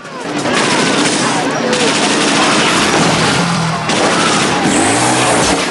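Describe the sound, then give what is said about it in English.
Sustained automatic gunfire from a Browning machine gun in a film action scene: a dense, loud, continuous burst lasting several seconds, with vehicle noise mixed in. “Kersey bursts out onto the balcony and mows two bikers down with the Browning.”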